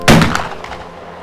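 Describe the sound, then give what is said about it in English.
A single sharp gunshot in snowy weather near a pond: a loud crack at the start that fades into a long, rumbling tail. “that sounded like... A gunshot.”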